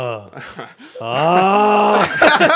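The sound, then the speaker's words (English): A person imitates snoring with their voice: a few short voiced grunts, then one long, drawn-out groaning tone lasting about a second, ending in a rougher, breathy tail. It is loud and carries no words. “When I sleep like that, that's my snore.”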